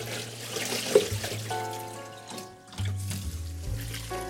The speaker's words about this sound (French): Maintenant, je vais m'occuper de ma salade parce qu'elle a trempé avec le vinaigre. Et je vais retirer cette première eau.